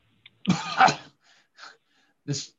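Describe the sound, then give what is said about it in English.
Harsh coughing comes from a player voicing a sick character who coughs up blood in a tabletop role-playing game: a long rasping fit, then two short coughs separated by quiet gaps, fairly soft overall. “I'm going to cough blood directly into Ned's face, partially because I think she'll like it.”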